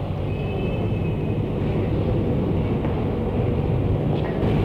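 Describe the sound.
A train leaves the station with a steady low rumble and broad hiss, holding an even loudness throughout. A faint thin whine rises above the rumble near the start, and no voices are heard.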